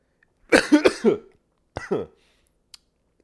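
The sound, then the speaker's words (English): Coughing fit after saliva went down the wrong pipe: a quick run of three or four rough, voiced coughs, a short pause, then a couple more, fairly loud against silence. “I inhaled and like some spit just kind of went down the wrong pipe.”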